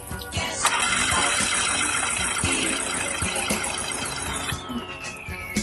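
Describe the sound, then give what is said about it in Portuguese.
Starter motor cranking an engine for a cylinder compression test, the spark plug removed and that cylinder open: a steady, loud, rhythmic churning that runs the full length without the engine catching. “Ele vai girar o arranque lá e eu vou medir até o ponteiro estabilizar.”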